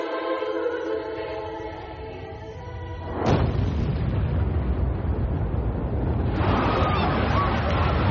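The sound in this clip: A strong explosion detonates in the upper floors of a building: a sudden loud blast is followed by a sustained, roaring rumble that swells again near the end.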